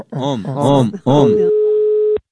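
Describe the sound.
A ringback tone sounds while a call is being placed: a steady, mid-pitched single tone holds for about a second and stops abruptly. It follows a person talking at the start.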